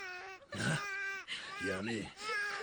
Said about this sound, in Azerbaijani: Ağlama balam sen ağlama.